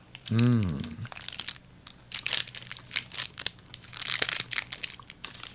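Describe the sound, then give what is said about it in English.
A health bar wrapper crinkles and crackles as it is peeled back, a loose series of sharp, papery bursts of varying loudness. “Now, I've eaten a lot of health bars. That's what I'm peeling back here.”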